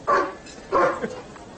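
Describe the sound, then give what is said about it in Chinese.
A dog barks twice, loud and fairly low, as it blocks the doorway of a newly opened tavern, with a faint short yelp trailing the second bark. “恶狗挡门，我进不去啊。”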